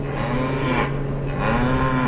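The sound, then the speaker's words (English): Cows mooing in distress as the wind shifts and aircraft fly overhead: two long, drawn-out lowing calls over a steady low drone, no voices. “Cows start howling in distress.”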